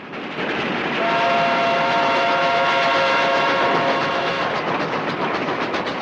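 A speeding train rolls along the tracks with a loud, steady rumble and rhythmic clatter, while sustained whistle-like tones ring through the middle of the passage.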